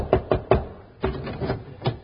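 Knocking on the door of a house: three sharp raps in quick succession, then a few softer, more widely spaced knocks.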